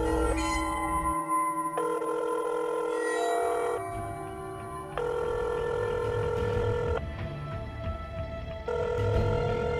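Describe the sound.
A telephone rings on an outgoing call, a dramatised scene in which someone phones a dead lover's number. Bright, bell-like tonal rings repeat several times, fairly loud and steady, with no voices.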